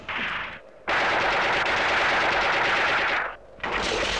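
Rapid automatic gunfire as a group of about twenty shooters fire on one man: loud, dense crackling bursts in three stretches, a short volley, a long sustained barrage, then another volley, separated by brief pauses.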